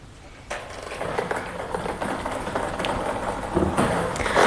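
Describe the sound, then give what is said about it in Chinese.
Jiangsu sports lottery seven-digit drawing machine starting up with its number balls spinning: a steady whirring rumble begins about half a second in, with scattered light clicks and clatter running through it. “首先，工作人员已将号球放入开奖箱，接下来我们将正式开始本期江苏体彩七位数的直播摇奖，请工作人员启动摇奖机。”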